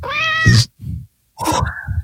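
A cat meows loudly, one drawn-out, clear meow followed by brief rough, breathy sounds and then a second, shorter meow, with no talk.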